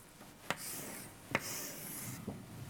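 A graph being drawn by hand: three sharp taps of the drawing tool, each followed by soft, scratchy strokes, all quiet and without talk.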